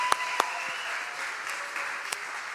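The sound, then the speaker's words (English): Church audience applause welcoming a pastor to the stage: a steady wash of many hands clapping, with a few sharper single claps standing out, continuous throughout. “So would you put your hands together?”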